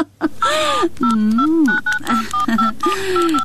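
Telephone keypad beeps sound as a call is dialed: several short tones in quick succession over a louder warbling, wavering sound.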